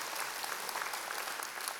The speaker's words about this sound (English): if we'll clap for my daughter's worldview, how much more so does the movement of God's church matter?